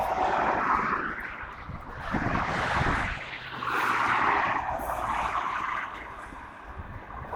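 Fast road traffic roaring past: loud, rumbling whooshes that swell and fade several times, each pass blending into the next, with no voices.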